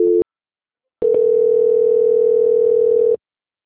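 A telephone tone during a call transfer: a short, loud buzzy beep, a pause, then a steady, unbroken tone of about two seconds that cuts off abruptly.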